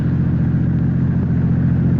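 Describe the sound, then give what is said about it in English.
Car engine while driving at night: a steady, low, droning hum that holds an even loudness throughout, with no voices. “All you're doing is driving.”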